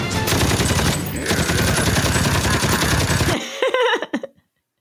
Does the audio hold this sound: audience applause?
no

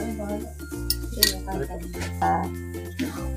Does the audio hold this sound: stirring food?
yes

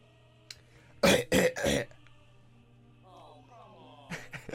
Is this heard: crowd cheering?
no

